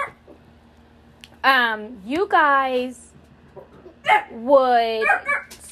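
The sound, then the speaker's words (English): Dogs bark, yip and whine in a few loud, high-pitched bursts with sliding, whining tones, separated by short pauses. “I don't know what's going on with my dogs. They're barking for absolutely nothing.”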